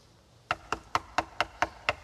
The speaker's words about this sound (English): He knocks on the door again.